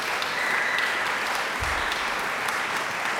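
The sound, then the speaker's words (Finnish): Applause from an audience as young festival musicians take their bows after a Brahms piano quintet, a steady dense patter of clapping at moderate loudness, alone without talk. “Ja siinä tulevat yleisön eteen kumartamaan vielä kaikki tämän Radala-festivaalin nuoret taiteilijat.”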